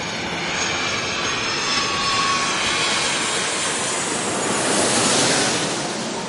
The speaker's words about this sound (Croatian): Prvi let je stigao na aerodrom u Sidneju iz Los Angelesa u 6:20 ujutru.